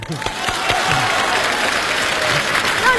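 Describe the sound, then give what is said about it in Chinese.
Dense, steady applause from an audience at a festive gathering, welcoming a man up to give an acceptance speech after being chosen; the clapping stays loud and continuous throughout. “让我们今天所有到场的好朋友，伸出您的双可爱的双手，欢迎大叔做获选感言”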